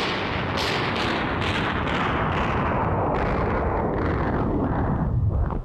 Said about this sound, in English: Stop all that dreadful shooting, old man. All right, wait a minute. Let me kill the sound effect here.